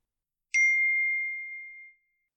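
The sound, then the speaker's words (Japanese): A single bright electronic chime from a smartphone called so it could be found, one clear tone that sounds alone in silence and fades gradually over about one and a half seconds. “スマホがない。電話をかけますね。”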